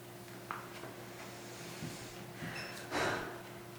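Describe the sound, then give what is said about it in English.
A person takes a deep breath: a soft, rushing inhale that swells toward the end, over a faint steady hum. No talking is heard. “I want to invite you to take a deep breath.”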